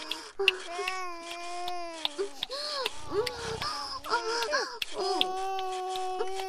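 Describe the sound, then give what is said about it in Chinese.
An infant cries after waking, giving high, wavering wails in repeated bursts with short breaths between them. “你孙子醒了，在哭呢，我把他哄睡。”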